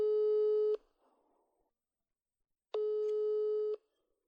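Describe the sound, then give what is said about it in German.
A ringback tone from an outgoing telephone call: two steady, low, buzzy beeps of about a second each, separated by a long silence, with no voices. “Dann rufe ich sie jetzt an.”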